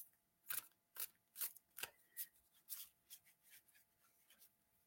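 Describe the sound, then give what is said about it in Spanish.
Tarot cards that are sticking badly together are being shuffled: many quick, crisp riffling and slapping strokes in an uneven rhythm, faint and with no voices. “A Javier, vamos a revolver las cartas, están súper pegadas.”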